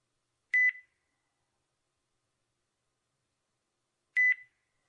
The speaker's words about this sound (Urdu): آپ کی کال بند کر رہا ہوں